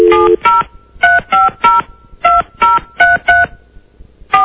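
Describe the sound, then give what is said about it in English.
Telephone keypad dialing tones: ten short two-tone beeps are punched out at an uneven pace in quick runs with brief gaps. They are loud and clear, with no talk over them. “Did I dial correctly? I'm not hearing anything. Hold on a second.”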